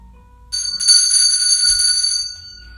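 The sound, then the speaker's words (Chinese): An electric bell rings in one sustained burst of about two seconds: a bright, steady metallic tone with several high ringing overtones that starts abruptly, holds evenly, then cuts off. No voices. “那铃铛声一响。门又关上了，然后电铃铛又响了。”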